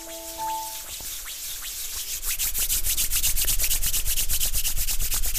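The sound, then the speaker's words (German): Hands rubbing together, a dense run of quick brushing strokes that begins softly and grows louder and steadier, continuing without pause to the end. “Genau, und dann die Hände aneinander reiben.”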